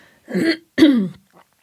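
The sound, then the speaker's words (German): Throat clearing of leftover mucus comes as two rough, raspy bursts, the second slightly stronger, followed by a faint brief rasp, with no speech. “das ist noch der Restrotz aus dem Morgenmagazin”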